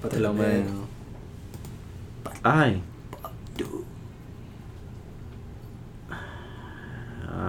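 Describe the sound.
A Google search is typed on a computer keyboard, with soft, sparse key clicks under lively conversation between several people.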